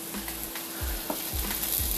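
Tomato soup, milk and Italian seasoning are stirred into noodles with a few soft, wet scraping strokes at a steady rhythm. A continuous sizzling hiss runs underneath.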